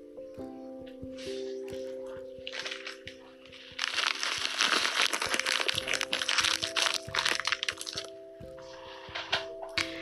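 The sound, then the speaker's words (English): Cute plastic bag holding dried rose buds from a health food store, crinkling softly up close. Quiet crackles and crunches come in irregular bursts, growing busier and denser in the middle before easing off. “These are just some rose petals. Well, rose buds that I picked up at the health food store, and they're in a cute plastic bag.”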